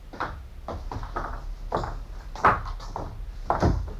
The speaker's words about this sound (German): Wir klopften an die Tür, doch es kam keine Antwort.